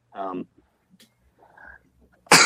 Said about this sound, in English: That was a pure masculine sneeze.